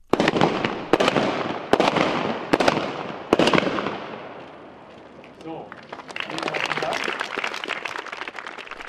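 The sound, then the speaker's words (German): Loud bangs launch coloured powder into the air at a jubilee celebration opening a school lab. There are five sharp, booming cracks about a second apart, then a swell of crowd noise with voices and clapping. “Mit lauten Klepfen und vielfarbigem Pulver, das in die Luft geschossen worden ist, hat das PSI gestern Abend den neuen Teil vom Schülerlabor iLab eingeweiht.”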